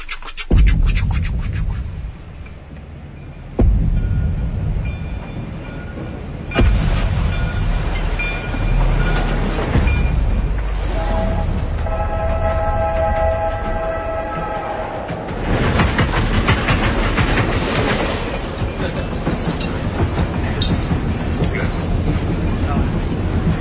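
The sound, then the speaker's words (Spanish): A train in motion rumbles and rattles steadily, with loud, continuous low-pitched noise and clattering, scraping textures throughout. “Escucha, escucha, que nos va a poner el tren.”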